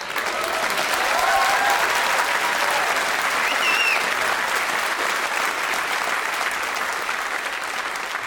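Audience applause, continuous and evenly dense, sustained at a steady level for about eight seconds without any break.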